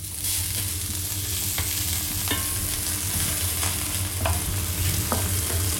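Spätzle and onions frying in a pan, a steady sizzle running throughout while a few scraping clicks from stirring break through at irregular intervals, with no voices.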